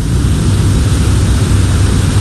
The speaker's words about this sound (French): ils ne sont plus sur terre, ils ne sont plus sur l'île de la Réunion, c'est dans les airs, c'est juste magnifique. Nous le rappelons du côté de la base aérienne 181 à bord de ce gros avion.